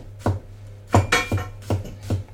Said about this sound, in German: Schneiden wir gerade den Knoblauch.